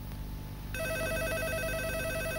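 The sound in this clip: A telephone rings in an office. After a moment of background noise, a loud electronic ring tone starts and continues steadily without a break.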